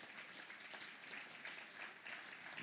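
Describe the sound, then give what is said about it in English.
Faint audience applause at a talk, a steady wash of many hands clapping that holds an even level throughout without voices rising above it. “Let's just give them a hand clap.”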